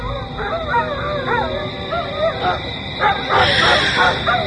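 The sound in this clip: A dog behind a house beside a cliff keeps up a string of yelping barks, whimpers and howl-like cries while staring up into a guava tree, all heard under a continuous speaking voice.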